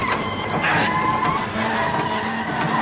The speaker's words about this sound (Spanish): Y sigue haciendo presión hasta pinchar la rueda. El vehículo se sale de la carretera y los ocupantes se bambolean en el interior.